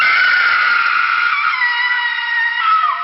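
A woman screams inside a tomb in one long, loud, high shriek that holds steady, then slides lower toward the end.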